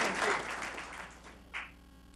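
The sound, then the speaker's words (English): Round of applause for an employee at a workplace gathering, faint clapping that starts fullest and fades away, with a small late burst of claps before it dies down. “Let's give Zach a round of applause.”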